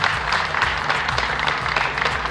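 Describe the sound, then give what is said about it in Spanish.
Applause for an official at a state ceremony where he greets governors and ministers. The clapping is moderately loud and uneven over a steady low hum. “Es aplaudido.”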